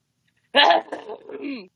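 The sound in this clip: A man clears his throat once from silence, a rough, voiced rasp lasting about a second that starts loud and tapers off into a lower, grumbling tail.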